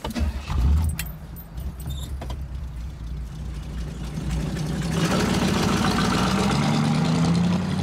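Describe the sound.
Car keys jingle briefly at the start, then a car engine idles steadily. The engine note climbs as the car pulls away and drives off.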